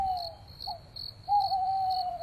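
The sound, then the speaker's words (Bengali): An owl hoots at night from a garden: a short call, then a longer, steady, mid-pitched hoot, over a continuous high insect chirr. “রাত অনেক হলে বাগানের দিক থেকে একটা পেঁচা ডেকে উঠে”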